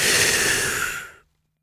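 A single deep breath drawn in, loud and airy with a broad rushing hiss, steady for about a second before cutting off into silence.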